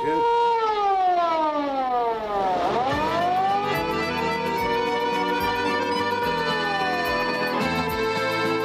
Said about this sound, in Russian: повлек его к стоявшей у дверей полицейской машине, умчавшейся в тот же миг с пронзительным воем.